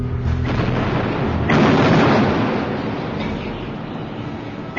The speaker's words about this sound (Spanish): Comenzó el cañoneo.